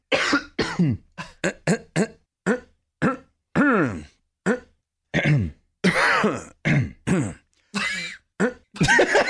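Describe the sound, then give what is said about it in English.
Repeated throat clearing and coughing just before going on air, a long run of short, rough bursts, some voiced and groaning, coming one after another in an uneven rhythm. “There's a lot of throat clearing before we went on air. This is a daily occurrence.”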